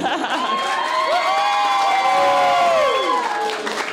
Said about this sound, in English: We're going to clap for that.